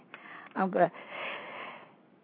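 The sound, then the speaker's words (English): A single faint sneeze, a quick two-part burst of breath, followed by soft breathy noise. “excuse me for sneezing”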